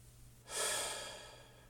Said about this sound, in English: take a nice, deep breath, letting it out slower than it came in